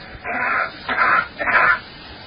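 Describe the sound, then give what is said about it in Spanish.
A cough as it would sound on Mars: three dull, muffled bursts of coughing, each short and thin, with gaps of quiet between them. “Vamos a repetir la tos en la Tierra y la tos en Marte. That's coughing on Mars.”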